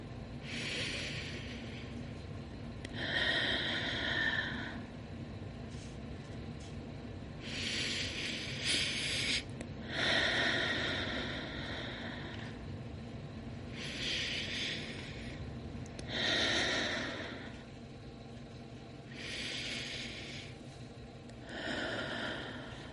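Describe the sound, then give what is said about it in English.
Deep, full breaths in a guided breathing exercise: a slow series of loud, airy whooshes drawn in and let out, separated by quiet pauses. “So let's take 5 deep, full breaths together.”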